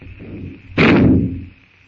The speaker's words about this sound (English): With the shot, the jungle noises stop.